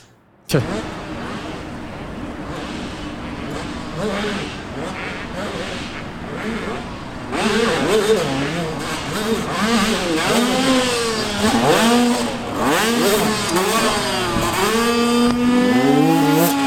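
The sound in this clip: A racing motorcycle engine revs hard at a dirt-bike straight-rhythm race event. It makes a steady loud drone, then repeated sharp rises and falls in pitch as the throttle opens and closes, louder in the second half.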